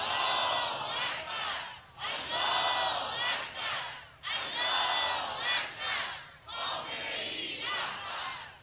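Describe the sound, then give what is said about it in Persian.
A crowd chants 'Allahu Akbar' in unison in 1974, four rhythmic, drawn-out phrases of many voices separated by short breaths, fairly loud and echoing with a steady, repeated cadence. “این صدای الله اکبر از اون سالها، گفتم این سال 1353 قبل از پیروزی انقلاب اسلامی”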